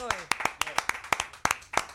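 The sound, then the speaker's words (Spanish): Brisk hand clapping offered as applause, many sharp claps in a steady, slightly uneven rhythm lasting about two seconds, with a voice speaking briefly at the start. “Un aplauso a los buenos.”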